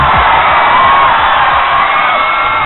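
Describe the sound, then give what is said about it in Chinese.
A live concert audience screams and cheers in a continuous, dense wall of high, shrill voices. The roar stays loud and steady from start to finish with no break. “尖叫声音”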